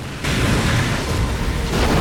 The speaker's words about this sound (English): a missile drop out of the sky and strike the plane